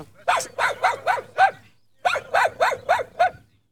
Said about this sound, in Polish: On jest za głośny. Cicho, cicho, cicho. Daj spokój. Wcale nie jest groźny. Nie, ale szczeka.